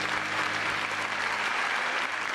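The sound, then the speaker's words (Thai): An audience applauds to encourage two young men, a dense, continuous round of clapping that stays loud and even from start to finish. “ปรบมือให้กำลังใจ2หนุ่มหน่อย”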